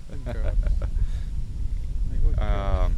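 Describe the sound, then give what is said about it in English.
Wind blowing outdoors buffets the microphone with a continuous low rumble that swells and eases throughout, while voices talk over it. “Now we're getting some badass wind over here.”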